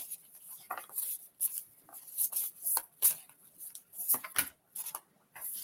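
Playing cards being shuffled and handled: many faint, uneven riffling clicks and soft flicks in irregular bursts, with no talk over them.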